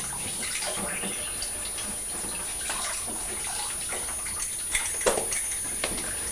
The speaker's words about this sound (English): I'm going to just wash your hands because you've been out and we've been touching the city